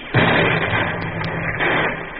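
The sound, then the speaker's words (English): Live artillery rounds blast during a military training maneuver, giving a sudden heavy rumbling burst that sustains as a roar, then a second surge of rumble swells up later before tapering. “The explosion's from number 4 gun coming this way.”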